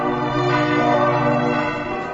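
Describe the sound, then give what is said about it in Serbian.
Church bells ringing among mountains in a sustained, rich metallic tone that hangs evenly throughout, loud and alone without voices. “Kakav je odjek tih sent-andrejskih zvona među onim planinama?”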